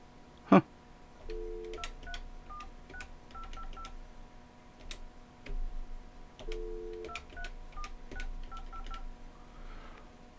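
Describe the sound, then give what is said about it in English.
Telephone keypad dialing while calling people back into a call, many short dual-tone beeps in a few quick runs, faint and clean, with one sharp click just before the first tones. “I'm going to have to dial everybody back.”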